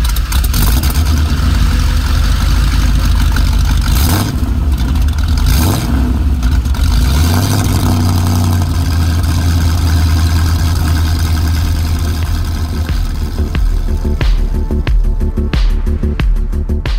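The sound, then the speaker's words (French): A racing-modified 300 SEL 6.8 sedan engine roars loudly and continuously, surging upward in pitch a few times as it revs, then settling into a heavy, steady drone. “la berline 300 SEL 6.8, modifiée pour la course, que je vous fais entendre maintenant.”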